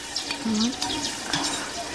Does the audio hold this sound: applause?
no